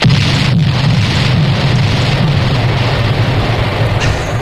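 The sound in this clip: Bomb explosion sound effect: a loud, sustained rumbling blast of broad noise that holds steady for several seconds with no voices.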